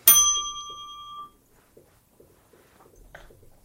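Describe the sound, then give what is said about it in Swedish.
A bright chime ping strikes once and rings out with a clear, slowly decaying tone, then fades to near silence. “nu kan vi mm. plinga.”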